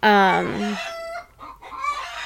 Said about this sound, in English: God, the fucking chickens.